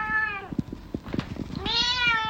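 A female cat meows twice: a drawn-out, wavering cry at the start and another near the end. Soft, clicky little sounds fill the gap between them.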